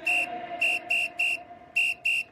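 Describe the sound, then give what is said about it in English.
Someone whistles six short, high notes, sharp and clipped. Each note holds an even pitch, with brief gaps between them. “Sorry, I don't speak whistle.”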